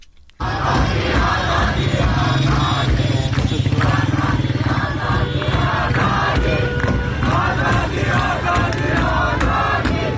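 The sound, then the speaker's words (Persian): A night-time street protest crowd in Tehran, Iran, shouts loudly and continuously, a dense mass of raised voices that holds steady for about ten seconds after a brief quiet opening. “صدای اعتراضهایی در شهر تهران را میشنوید.”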